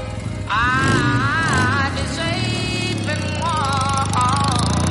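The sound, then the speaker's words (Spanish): A motorcycle engine starts up and revs, its tone wavering up and down before settling into a loud, steady running note. “Jim arranca su moto”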